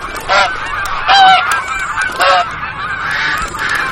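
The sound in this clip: Loud honking of a large flock of migrating geese resting on a small North Sea island on their way to Siberian breeding grounds, with many overlapping calls rising and falling in a continuous clamour.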